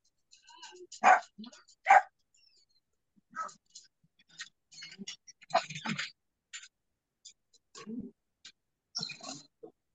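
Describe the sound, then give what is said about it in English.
A dog barks a few times, with two sharp, prominent barks near the start and fainter yips later, scattered among quiet rustles and low voices. “Sorry about the dog.”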